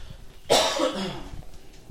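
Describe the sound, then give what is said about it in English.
A single harsh cough from a man who is ill, a sudden loud burst trailing off into a short raspy breath, with no speech. “I hope you'll pardon my cough. Fighting this thing.”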